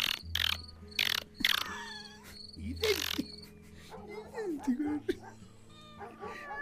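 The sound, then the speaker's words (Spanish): Rufous hornero birds singing persistently, their shrill, frantic calls repeating in bursts and sliding chirps, some loud and some fainter. “el enloquecido y persistente canto de los horneros”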